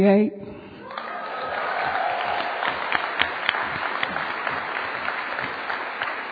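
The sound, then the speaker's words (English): Audience applause, a dense, steady patter of many hands clapping that holds level for about six seconds after a brief onset. “We all clapping to God.”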